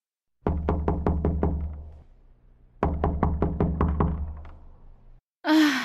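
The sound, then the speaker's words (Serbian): Knuckles knocking on a neighbour's wooden door: two separate bursts of several sharp, evenly spaced raps with a short pause between them, loud and clear with no voices. “Predveče ode komšiji i na vrata zakuca.”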